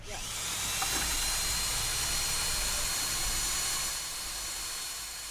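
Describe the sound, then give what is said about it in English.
A power mixer stirring grout gives a loud, continuous whirring drone that holds level for several seconds and eases slightly near the end. “right now I'm mixing the grout”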